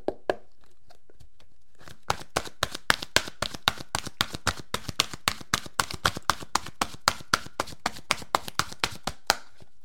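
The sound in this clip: Message cards are shuffled: after about two seconds of near silence comes a long run of many crisp, evenly paced papery taps and flicks, fairly faint, with no voices.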